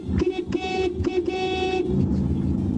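A car horn honks in a few blasts, a buzzy tone that holds then cuts off, over a steady low rumble that continues after the honks stop.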